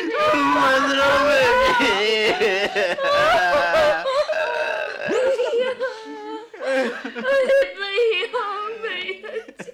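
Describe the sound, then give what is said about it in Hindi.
Loud tearful wailing and sobbing voices rise and break as a bride departs in a doli, with trembling, pitched cries running almost continuously, then turning choppier and more broken toward the end. “रोने की आवाज सुनकर बहन उतावली हो जाती है।”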